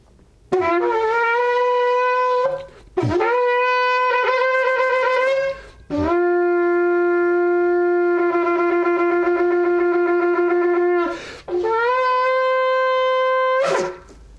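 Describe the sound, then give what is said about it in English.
A shofar blown during a prayer gathering: four long, loud horn blasts with a buzzy, harmonic-rich tone, each bending upward at its onset, the third held as a steady note for several seconds. “This is the shofar, Sid, that I actually sounded on that day to the World Trade Center from the Statue of Liberty. I'm going to sound it”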